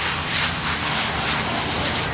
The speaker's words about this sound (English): spray all these clothes out and get them all cleaned out before we put it in the wash machine